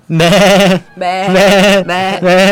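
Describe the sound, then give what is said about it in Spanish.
Sheep bleating: a few loud, wavering bleats follow one another with short gaps, clear and alone. “pero apareció un borrego acá.”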